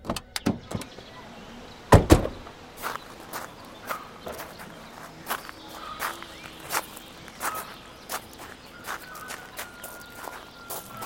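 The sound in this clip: Footsteps of people walking outdoors near a tree-lined avenue, many irregular soft steps with a few sharper knocks, including a louder one early on, under a faint background hum.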